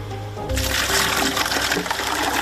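Water pours and splashes into buckets as it is hauled by hand for daily household use, a dense, steady rushing gush that starts abruptly after a short quiet lead-in and holds at an even level.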